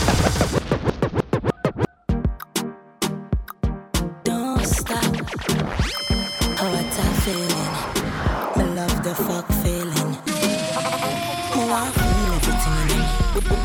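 Turntable scratching by a DJ: a burst of sharp, rapid scratches and stuttering cuts in quick rhythm, running into a busier stretch of looping, scratched tones and a low sustained beat near the end.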